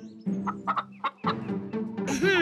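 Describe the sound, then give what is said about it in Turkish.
Hungry chickens clucking while waiting for seed: a run of short, clipped clucks in quick, uneven bursts, ending in a longer, drawn-out call. “Merhaba tavuklar. Burada hepinize yetecek kadar tohum var.”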